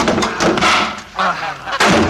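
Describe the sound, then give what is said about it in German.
Goose honking in the path of a vehicle: a few loud, harsh honks in quick bursts separated by short pauses. “Ja, weg, die blöde Gans!”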